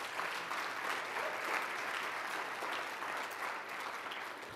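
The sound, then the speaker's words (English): A church audience gives a round of applause: a continuous, even wash of many hands clapping at once, fairly quiet overall and steady from start to finish, with no voices standing out. “So give a round of applause for that”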